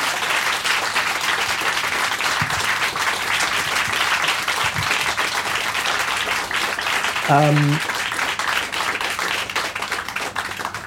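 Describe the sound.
Sustained audience applause after an onstage interview at a live event, a steady wash of many hands clapping that runs unbroken for about eleven seconds.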